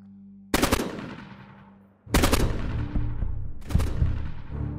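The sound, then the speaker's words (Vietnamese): An AK rifle fires in a forest: three loud bursts of rapid, sharp cracks, each followed by a long rumbling tail that fades before the next burst. “Tiếng súng AK nổ một tràng dài rền cả khu rừng”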